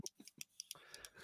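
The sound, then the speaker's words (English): Sharp clicks from a pen being clicked, a few quick ticks in an uneven rhythm, faint and alone, followed by a soft continuous rustle. “if anybody heard that click from my pen, it makes that noise.”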